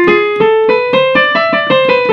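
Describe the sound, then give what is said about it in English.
A Phrygian sharp 3 scale, also called the fifth mode of harmonic minor, played as a brisk run of about a dozen clear, ringing notes in even rhythm, climbing steadily and easing back slightly at the end, with no talking. “And what's commonly used with Phrygian is they do what's called a Phrygian sharp 3 scale, which sounds like this.”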